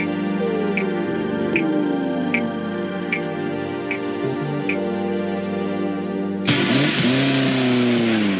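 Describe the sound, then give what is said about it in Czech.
Race car engines revving at an automobile racing event: a sustained engine drone with one engine's pitch sliding steadily down, then a louder burst near the end carrying another falling engine whine. “nejaké zvuky automobilových súťaží”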